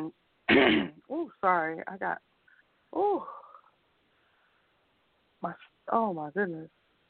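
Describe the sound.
Throat clearing from someone with something stuck in the back of the throat: a few rough, raspy bursts with voiced, speech-like sounds between them and short pauses.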